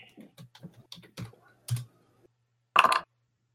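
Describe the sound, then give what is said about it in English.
Typing on a computer keyboard during a tabletop role-playing game played on a computer, with scattered light key taps and then a louder, quick burst of keystrokes near the end. “Maybe I have to type in GM.”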